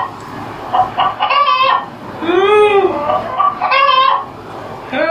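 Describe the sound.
A chicken squawking loudly in a run of drawn-out, harmonically rich cries and clucks, rising and falling in pitch with brief gaps between them.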